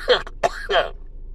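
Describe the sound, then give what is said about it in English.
Post-nasal drip cough: three short, throaty, voiced bursts in quick succession, moderately loud, followed by quiet. “it's a post-nasal drip type cough.”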